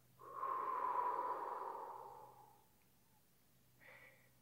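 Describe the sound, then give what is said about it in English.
Breathing in through the nose and out through the mouth during a children's breathing exercise: one long, soft, airy breath with a slight whistling tone swells and fades, then a brief, faint breath sound follows after a pause. “And we're going to do that three times. In through our nose, out our mouth.”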